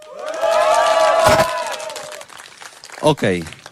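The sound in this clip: A theatre festival audience cheers at the Teatr Zdrojowy in Polanica-Zdrój, with loud, high whoops and shouts over scattered applause that swell and then thin out before a voice briefly speaks near the end.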